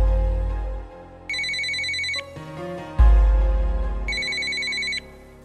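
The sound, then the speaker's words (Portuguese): A phone ringing with the call going unanswered: two bursts of a bright, rapidly pulsing ringtone, separated by a pause, over a steady music beat with deep bass thumps. “o cara não atende o telefone, velho. Tentar ligar aqui de novo.”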